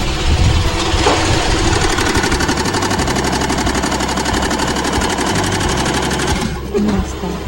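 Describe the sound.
A sewing machine stitches a placket on a garment, a loud, steady run of rapid, even stitching that continues almost without a break for the whole stretch.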